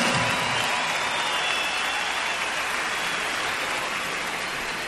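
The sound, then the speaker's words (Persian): A concert audience applauds the orchestra's conductor with dense, steady clapping that holds at an even level throughout. “به افتخارشون یه دست خیلی خیلی محکم تقاضا میکنم.”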